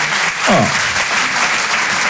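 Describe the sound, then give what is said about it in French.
An audience applauds a couple married 51 years with a steady, dense wash of clapping throughout. A brief exclamation from a single voice rises over it near the start. “on peut les applaudir. 51, c'est beau, ça.”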